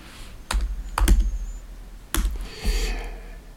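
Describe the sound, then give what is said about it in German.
Typing on a computer keyboard to open a website: a few clacky keystrokes land in short, uneven bursts with brief pauses between them, and no talk over them. “Ich gehe jetzt mal auf die Website von RTL.”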